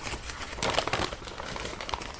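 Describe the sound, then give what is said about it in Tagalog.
Gift wrapping crinkles and tears as a present is opened, with brief bursts of paper rustling that are loudest near the middle and fairly faint overall. “Oh, yung regalo ko. Buksan mo na. Sana magustuhan mo yan. Sige nga, open ko na nga.”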